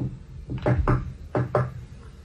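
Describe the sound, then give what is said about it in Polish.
Hesitant knocking sounds on a clinic door: dull, low knocks in two short groups separated by a brief pause, with no talk. “w którego ramach rozległo się do mej przychodni niepewne pukanie.”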